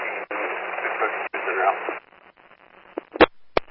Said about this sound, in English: Unit calling, it's all static.